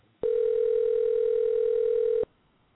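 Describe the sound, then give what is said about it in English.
A telephone dial tone plays on a call line: one steady, even hum held for about two seconds, starting and cutting off abruptly, with no voices. “All right, here we go. We're dialing.”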